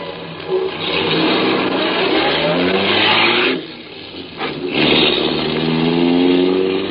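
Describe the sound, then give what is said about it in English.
A car engine revs hard and accelerates loudly, its tone climbing in pitch. It drops away briefly, then surges again into a second strong acceleration. “I headed my car toward home.”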